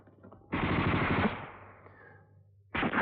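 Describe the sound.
Machine-gun fire in a tense wartime standoff. A loud rattling burst breaks out, then rumbles and fades before a second sudden burst begins. No voices.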